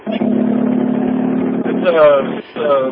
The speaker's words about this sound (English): It's a V8 Mustang. Okay. All right. I just thought, you know, it sounded like a little four banger there. Oh, come on, man. Ford V8.